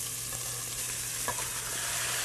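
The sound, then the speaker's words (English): Kimchi and its juice sizzle in a hot pan over high heat, a steady, dense frying hiss that holds evenly throughout, with faint clicks of stirring. “We're gonna add in the kimchi along with the kimchi juice.”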